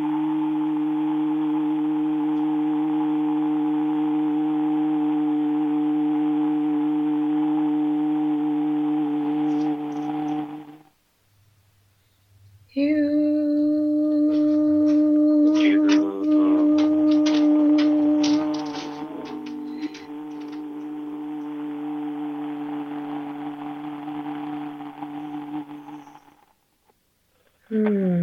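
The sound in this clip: A sustained sung vocal tone, chanted on a comfortable held pitch, comes as two long, steady notes with rich overtones, the second longer and slightly wavering, separated by a short silence.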